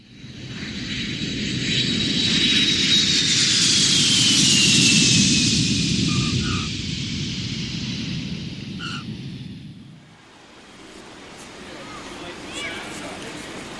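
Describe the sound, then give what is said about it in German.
A Lufthansa jumbo jet landing at Johannesburg: a loud, steady engine roar with a high whine that slowly falls in pitch, then a sudden drop to a quieter rumble near the end. “Pünktlich um 6.30 Uhr landet der Lufthansa Jumbo in Johannesburg.”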